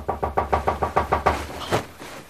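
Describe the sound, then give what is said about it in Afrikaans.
A hammering knock on a door in the middle of the night: a rapid, evenly spaced run of loud knocks, a short pause, then one last knock, with no voices. “Wie hamer in die middel van die nag aan 'n mens se deur?”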